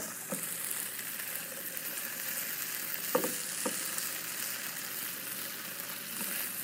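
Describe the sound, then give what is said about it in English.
Potatoes frying in a hot pan give a faint, constant sizzle and hiss, broken by a few sharp scraping clicks as they are stirred. “Stir up these potatoes a little bit more.”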